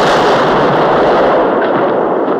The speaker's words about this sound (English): The cannonball rolls slowly out of the wrong end of the cannon.